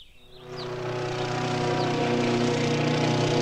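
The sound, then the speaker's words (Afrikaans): A new lawn mower cutting grass: an engine drone with a buzzy, harmonic-rich hum swells up over the first half second, then holds loud and even throughout. “Toe sny hy die res van die gras met sy nuwe grasnyer.”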